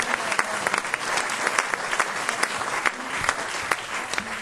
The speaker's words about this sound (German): Ein schöner Applaus für euch.